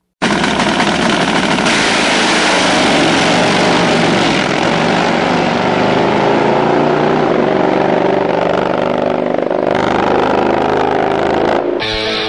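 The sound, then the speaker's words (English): Roar of Harley drag-racing motorcycles running down a drag strip: a loud, continuous, rasping engine blare that holds steady for about twelve seconds before cutting off abruptly. “It's time to go drag racing! 200 plus miles per hour!”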